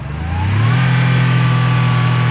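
A car engine drives through a city centre as a radio drama effect, the hum swelling over the first half second and then holding a steady, loud drone with no voices.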